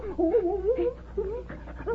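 A dog whimpering outside an open ranch-house window: soft, wavering high whines in several short, breathy bursts over a low steady hum.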